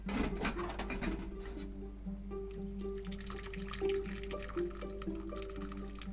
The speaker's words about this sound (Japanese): 茶葉を洗いますさっとお湯を通しまして